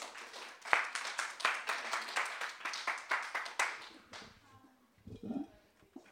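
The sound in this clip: A bookstore audience applauds to welcome a speaker, a lively burst of many hands clapping that rises quickly, holds for several seconds, then fades away.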